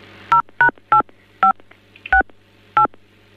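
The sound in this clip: Telephone keypad dialing tones sound while a call is transferred: six short, sharp beeps at uneven intervals, heard alone against near silence.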